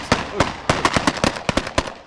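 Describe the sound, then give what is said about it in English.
Gunfire from a mock enemy attack on a squad of Norwegian soldiers in a snow-covered forest: many sharp, loud cracks in a rapid, irregular series lasting about two seconds. “Suddenly, we've just come under attack from the side, from some mock enemy up ahead, and the forces are running for cover, diving into the snow beside the road here and beside this one building.”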